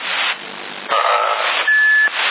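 A short electronic roger beep on a CB radio channel in Sassari: one steady, clean tone lasting about half a second, heard over band-limited static hiss.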